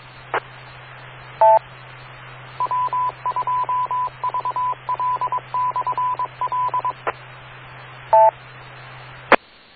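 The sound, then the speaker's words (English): Amateur radio repeater tones, with short beeps and a long series of rapid beeping tones over a steady low hum, broken by a few sharp clicks. “Gosh, this repeater makes so many noises in and of itself.”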